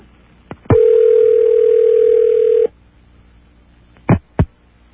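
A telephone dial tone on a line calling an automated telephone repair service: one steady tone held for about two seconds, then quiet, then two short sharp clicks.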